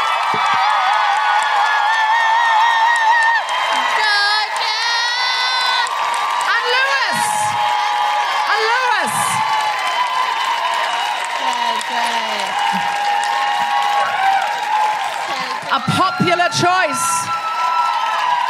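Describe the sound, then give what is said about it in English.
Live audience applauds, cheers and whoops in a steady, dense wash of clapping and shouting. High whoops and whistles rise above it now and then throughout. “Could you please put your hands together and make incredible woohooing noises for Tolu Mackay?”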